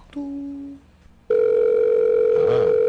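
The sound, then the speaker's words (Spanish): Telephone tone on an outgoing call: a short, lower electronic tone fades, then after a brief gap a loud, steady, unbroken tone holds to the end. “Está sonando entonces el teléfono.”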